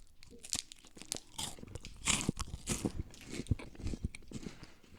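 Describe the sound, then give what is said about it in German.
Crisp, irregular crunching comes from biting into and chewing a Knoppers hazelnut wafer bar. Many brittle cracks and crackles overlap, with a few louder bites standing out among softer chewing. “Das ist mein absoluter Favorite, die Knoppersriegel. Wer kennt die? Aber das müsste dann die mit Haselnuss sein.”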